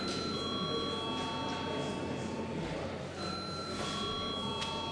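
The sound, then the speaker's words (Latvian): Electric bell ringing in the Latvian parliament chamber before a vote, a sustained, bright, buzzing ring with steady tones throughout that dips briefly midway. “Lūdzu zvanu.”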